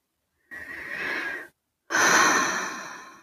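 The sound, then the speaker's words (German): A deep breath is heard as two loud, rasping breath sounds separated by a brief pause, the second longer and fading out, with no talk. “Und dann nimmst du einen tiefen Atemzug.”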